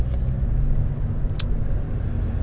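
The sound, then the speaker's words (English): Steady low engine and road rumble from a car driving down City Road and Old Street, a continuous dull drone with a few faint hisses and no voices. “Just driving down City Road, and, well, Old Street actually”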